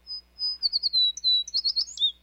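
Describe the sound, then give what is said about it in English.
An American tree sparrow, a small brown winter-visiting sparrow, calls with thin, high, sweet whistled notes and quick twittering chirps in a lively run lasting about two seconds, clear and alone. “The American tree sparrow is a common winter visitor in the northern U.S., but there's more to this little brown bird than meets the eye.”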